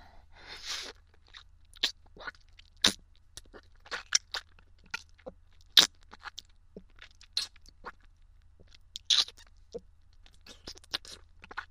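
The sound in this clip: Crisp crunchy chewing as a person starts to eat, with many short, sharp crunches in an irregular rhythm. The sound is fairly quiet and no one talks.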